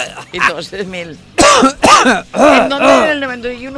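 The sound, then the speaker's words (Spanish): Coughing and throat clearing by one person, several harsh, rasping bursts with a strained, voiced tone, loud and with no other sound around them. “con tos y todo, y gargajos y tal”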